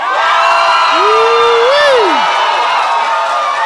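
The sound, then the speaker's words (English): Cheering and whooping from a live audience in Chicago: a loud, continuous crowd roar, with one voice whooping upward and then sliding down in pitch above it. “We need y'all to make some noise, okay? Yes. Okay? Yes. All right, let's try it.”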